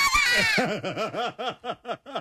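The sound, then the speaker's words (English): A man screams high and hoarse after missing a shot in a sports contest, then breaks into a rapid, rhythmic string of wailing yelps that rise and fall, loud and with no one else heard. “Listen to this last part, the last part here. Listen. That's him screaming he missed it.”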